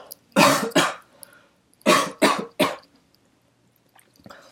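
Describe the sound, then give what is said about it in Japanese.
Someone coughs and clears their throat in five sharp, loud bursts, first a pair and then, after a pause, a group of three, with quiet between them. “ごめん、ちょっと咳が出そうだから”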